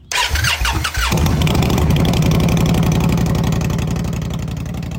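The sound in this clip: A motorcycle engine cranks for about a second, then fires and settles into a loud, steady idle with an even, rapid throbbing rumble.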